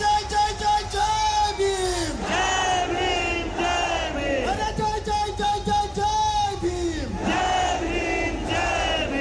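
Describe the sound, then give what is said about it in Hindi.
A protest crowd at Jantar Mantar in Delhi, waving tricolour flags, chants Jai Bhim slogans in loud, rhythmic unison, with each phrase rising and falling in repeated waves of massed voices. “हाथों में सभी के तिरंगा था तो जुबान पर जय भीम के नारे।”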